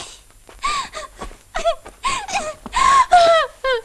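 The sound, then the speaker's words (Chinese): A young woman crying and wailing: many voiced, sobbing bursts with wavering, sliding pitch, fairly loud and separated by brief gaps, with no other talk. “姑娘，姑娘，你别哭啊！”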